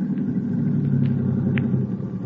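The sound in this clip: A car's engine gives a steady, low rumble as it pulls up, with no clear change in pitch or loudness.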